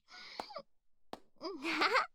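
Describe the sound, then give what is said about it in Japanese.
Tearful crying from happy tears, with voiced whimpering moans that waver in pitch and a few short, sharp sniffs breaking between them, fairly soft and with no speech. “あなたも泣いたっていいのに。鼻水すすってるのバレてるぞ。”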